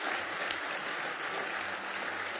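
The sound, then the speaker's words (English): Congregation clapping hands in praise at a church service, a thick, continuous wash of applause from many people at a steady, fairly loud level throughout the short stretch, with no voices standing out. “Now give him one more hand clap of praise tonight.”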